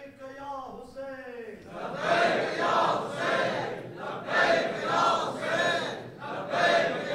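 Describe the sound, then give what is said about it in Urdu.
A crowd at a political rally in Pakistan chants slogans, half-heartedly and sounding tired. A single voice calls out first, then many voices answer in several loud, rhythmic bursts separated by short gaps. “یہ تو بہت تھکے ہوئے لوگوں کی طرح نعرے لگا رہے ہیں آپ لوگ،”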